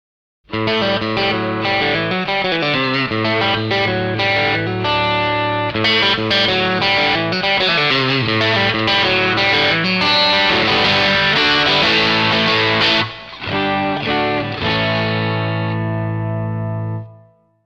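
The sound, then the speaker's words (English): Electric guitar played through a Boss BD-2 Blues Driver overdrive pedal, giving a warm, gritty overdriven tone. A run of picked notes and chords plays steadily without accompaniment, ending on a long, ringing chord that fades out. “BD-2 Blues Driver.”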